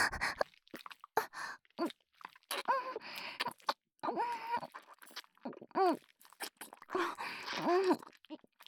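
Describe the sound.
Wet kissing sounds: soft lip smacks and pecks, interspersed with breathy moaning vocal sounds that come in several drawn-out swells.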